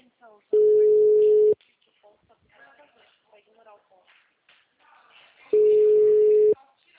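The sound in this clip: Ringback tone of an outgoing phone call that goes unanswered: two steady, mid-pitched one-second tones about four seconds apart, with faint murmuring and shuffling between them.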